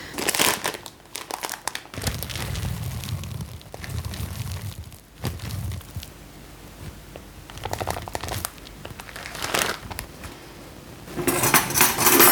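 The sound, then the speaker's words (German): Sunflower seeds, 90 grams, are added to low-carb omega-3 bread dough in a bowl: crinkling packaging and gritty rattling pours come in several uneven bursts, with no talk. “Jetzt mache ich 90 Gramm Sonnenblumenkerne rein.”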